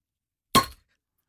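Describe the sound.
Beer bottle being opened: one short, bright pop that fades within a fraction of a second, with silence before and after.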